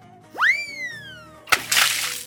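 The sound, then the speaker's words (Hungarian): A springy, gliding boing-like whistle comes first, then a short watery splash as a little rooster is thrown into a well. The splash hits sharply and sloshes briefly. “Ment a szolgáló, megfogta a kiskakast, és belevetette a kútba.”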